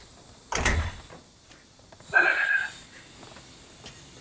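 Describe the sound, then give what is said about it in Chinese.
A door being closed at home gives a solid low thump, then a second, briefer burst with a thin squeak-like edge a moment later. Both are moderately loud over quiet background hiss, with no talk. “关门。”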